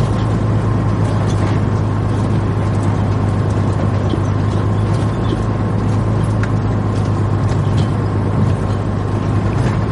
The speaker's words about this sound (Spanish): Más tarde conduce un vehículo por la noche.